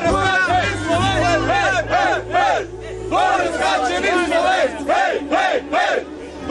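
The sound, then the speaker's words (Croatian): A group of Slovenian fans at a ski jumping event in Mostar cheer and chant loudly, their voices rising in repeated rhythmic bursts over a steady crowd roar. “Pored nekoliko hiljada domaćih gledalaca, posebno se isticala grupica navijača iz Slovenije koji su glasno bodrili svoje ljubimce.”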